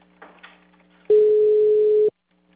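Telephone tone after a dropped phone call: one loud, steady, sustained tone lasting about a second, preceded by faint rustling and followed by silence.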